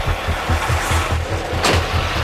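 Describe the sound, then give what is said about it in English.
A truck approaching near an offload site: a steady low engine rumble with a regular throbbing pulse beneath broad road noise, holding at an even loudness throughout, with no voices. “Well, there's a truck coming.”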